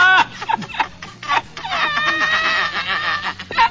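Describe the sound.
A hen clucks in a few short, sharp bursts, then gives a long drawn-out squawking cackle before ending with a couple more clucks, loud and clear.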